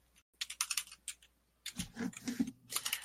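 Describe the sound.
Fingers type on a computer keyboard in quick, irregular runs of faint clicks, broken by a short pause before a second flurry.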